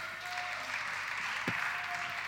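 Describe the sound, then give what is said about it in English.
Faint audience applause in a church greets someone invited to the front for questions, a steady, soft patter of clapping throughout. “Give Andrew a round of applause.”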